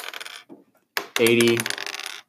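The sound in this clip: Percentile dice rolling: a few bursts of bright clattering with a ringing, metallic tone tumble and settle over about two seconds.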